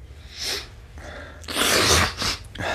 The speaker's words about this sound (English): excuse me. It's that time in the morning when I sneeze.